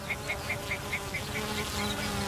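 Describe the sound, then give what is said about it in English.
Honeybees buzz over sunny heather moorland managed for red grouse, a continuous droning hum that holds an even, moderate level throughout with no voices. “But for centuries, this land has been managed for sport to increase the number of red grouse. It's also become a haven for honeybees,”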